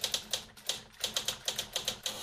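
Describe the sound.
Typewriter keys clack in quick, uneven bursts as a letter is typed at a workplace. The many sharp mechanical strikes are fairly faint and come with no talk.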